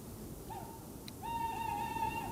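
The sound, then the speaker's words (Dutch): An owl calls with a short tonal hoot followed by a longer, sustained hoot. Both notes are clear, mid-pitched and carry faint harmonics. “Deze uil, die roept.”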